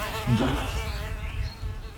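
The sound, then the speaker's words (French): A fly buzzes steadily in a film scene, a continuous droning hum that holds at a fairly even level for the whole stretch. “Ah si, putain, c'est une mouche.”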